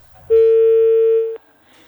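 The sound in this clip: Single steady electronic telephone tone after a call is cut off, held for about a second at one even pitch, ending abruptly before quiet line noise.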